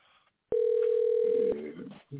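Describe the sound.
A single ringback tone sounds on an outgoing phone call, a steady low electronic tone lasting about one second that starts and stops abruptly. Quieter muffled sound follows.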